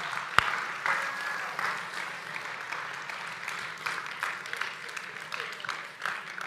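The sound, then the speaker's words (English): Audience applause for two pastors at a church gathering: steady, dense clapping that holds at an even level throughout, with one sharp crack near the start. “Let's give it up for Pastors Mark and Doug. We're so grateful to have them here.”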